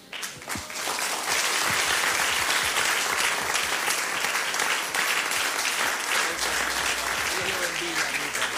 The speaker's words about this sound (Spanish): Dele fuerte ese aplauso al Señor.